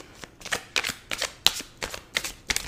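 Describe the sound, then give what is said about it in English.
Tarot cards pulled and slid from a deck, giving many quick, soft papery snaps in a fairly regular rhythm, faint and without any voices. “Since I don't have a quote for the week, let's just pull a card.”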